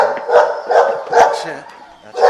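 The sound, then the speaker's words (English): Dogs barking at an animal shelter: several loud, sharp barks and yips arrive in an uneven rhythm, with brief gaps between the bursts. “Dogs of all shapes and sizes want your attention. But getting your attention this way may not be a good thing.”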